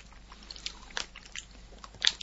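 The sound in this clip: Chewing of warabi mochi from Kofukudo, heard as quiet, moist mouth sounds with a few sharper bites standing out, mostly on their own against a low background.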